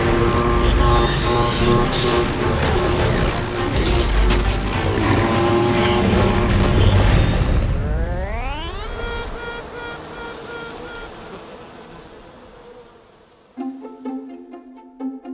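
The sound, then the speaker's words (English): Queen honey bee piping in the hive: a loud, dense buzzing drone gives way to a run of short, tonal toots near the end. “This piping sound is a battle cry, signaling that the queen is ready to fight to the death with any other queens in the hive.”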